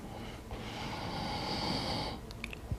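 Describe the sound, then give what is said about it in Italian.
Breathing in and out during a breathing exercise: one long, steady breathy rush lasting well over a second, followed by a few soft, brief sounds. “Sempre per 10 volte, 3, inspiro, espiro”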